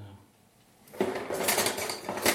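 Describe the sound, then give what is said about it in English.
Stirring thick yule bread dough down into scalded flour: after a near-silent first second, a dense, continuous run of scraping and clinking utensil-against-bowl noise begins abruptly and carries on steadily to the end. “so just stir it down into the scalded flour, which is kind of not so liquid, and mix it with the”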